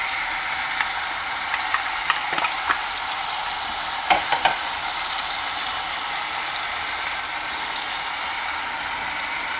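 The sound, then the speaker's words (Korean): Vegetables sizzle as they are stir-fried in a pan ahead of adding clams: a steady, bright frying hiss throughout, with a few faint clicks of a utensil against the pan. “이따가 바지락 넣고 하면은 조금 바빠질 것 같아서 손이 미리 볶아줍니다.”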